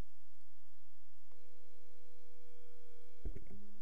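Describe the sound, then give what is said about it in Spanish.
A telephone ringback tone on an outgoing call from a live radio show: one steady, mid-pitched tone holds for about two seconds over quiet hiss, then is cut off by a click and a burst of line noise. “vamos a poder llamarlo, a ver, vamos a ver si entra la llamada, si no.”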